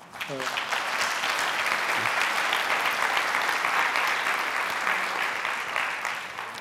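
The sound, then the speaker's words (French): An audience gives a speaker an ovation at a French-language literary talk. Dense, sustained applause runs steadily throughout, with a brief voice audible at the very start. “En tout cas, je le laisse sous vos ovations, Romy Alfonkois.”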